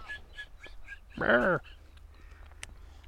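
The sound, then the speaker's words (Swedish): Greylag geese honking: a few softer calls, then one loud, harsh honk, with faint calls continuing afterward. “Två stycken grågäss.”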